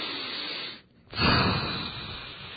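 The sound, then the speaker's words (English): A deep breath is blown out. Soft breathy noise is cut by a brief pause, then a strong, rushing exhale slowly fades out. “when I blow out like that, I get rid of the whole event.”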